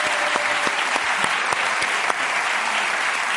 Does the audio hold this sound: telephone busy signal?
no

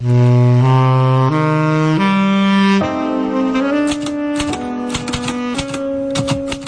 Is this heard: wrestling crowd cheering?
no

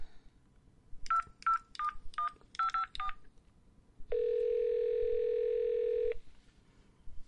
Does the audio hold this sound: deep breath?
no

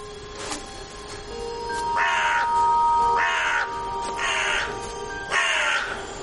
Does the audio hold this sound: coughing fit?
no

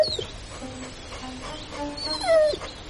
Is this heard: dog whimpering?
yes

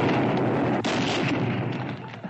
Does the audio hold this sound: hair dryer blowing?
no

